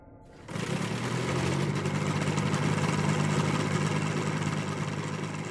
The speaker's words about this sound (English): The aircraft whirred to life, made a steady circuit of the field